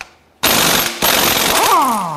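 Impact wrench with a weighted socket breaking loose an engine's crank pulley during timing cover removal: silence, then an abrupt, loud rapid hammering rattle in two bursts, ending with a whining tone that falls in pitch.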